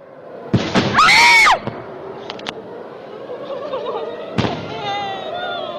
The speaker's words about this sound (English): You hear the air raid warning siren in the background.